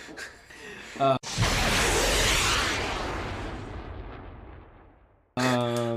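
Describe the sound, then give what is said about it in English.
A missile sound effect bursts in as a loud, sudden blast-like roar, then thins into a long hissing tail that fades over about four seconds, with people talking just before and right after it. “I'm just putting a missile sound.”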